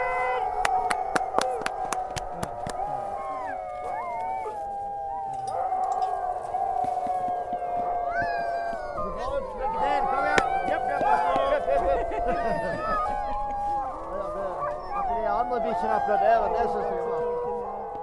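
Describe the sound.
Many sled dogs howling and yelping in harness, eager to set off on a cold night before a long run across the Finnmark plateau. A dense, continuous chorus of wavering howls, with sharp clicks in the first seconds.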